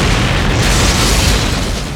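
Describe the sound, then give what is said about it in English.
A high-explosive grenade round explodes against a side door after being fired from a launcher under a rifle: a loud, dense, roaring burst of noise that fills the whole moment and eases slightly at the end. “A moment later, the HE round blew.”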